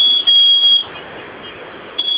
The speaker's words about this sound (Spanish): Esa alarma también se va a silenciar en un momento.